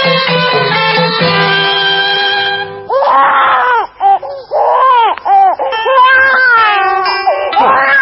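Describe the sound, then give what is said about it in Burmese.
A baby cries loudly in a series of high, wavering wails, each cry arching up and falling back in pitch, with short breaks between the bursts and a sustained, steadier tonal passage before them. “မင်းကလေးကငိုလာကြည့်လား”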